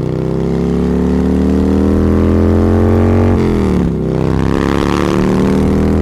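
A motorcycle engine hums loudly and continuously while carrying three riders on one bike, its pitch climbing gradually before a brief dip and a quick recovery.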